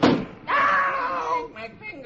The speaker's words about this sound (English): I better close this window." And she slams the window down on Beetle's hand.